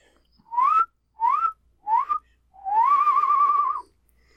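A slide whistle makes a bummer noise: three short upward swoops, then a longer wavering tone, all bright and alone.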